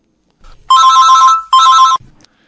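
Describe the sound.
A telephone rings for an incoming caller. Two loud electronic ring bursts sound in succession, each a steady warbling tone, with near silence around them.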